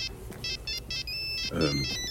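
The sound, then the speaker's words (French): A telephone ringtone rings as an electronic tone in repeated short, high beeping bursts with one longer sustained stretch. A brief voice sounds near the end. “Ça va sonner.”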